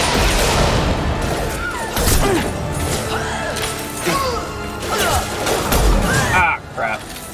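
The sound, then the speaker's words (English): Sniper rifle shots in a video game: a few sharp, heavy bangs burst out over a continuous game soundscape while people talk throughout. “We both shot the same target. Always sucks. Last sniper shot.”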